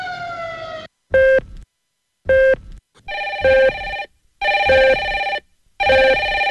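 Electronic telephone ringtone: repeated bursts of bright, buzzy beeping with strong harmonics, separated by short silent gaps, the later bursts longer and denser.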